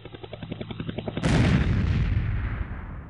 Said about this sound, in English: Will you stop shooting things down? Sorry, boss. Finger slipped. Oops, and again.